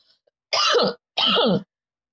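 Two harsh coughs from someone who inhaled while drinking, each about half a second long, loud and close together, with no talk around them.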